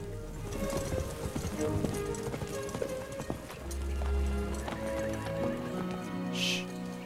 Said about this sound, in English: A herd of horses trot through the long grass.